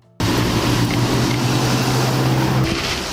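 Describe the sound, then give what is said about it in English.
A small, newish Ford Fiesta pulling up: a steady, loud engine hum cuts in abruptly and holds for about two and a half seconds before easing slightly. “Pull all the way up, please. It's a little it's a little Ford Fiesta or something that she's driving. One of the shitty uh, newish model ones.”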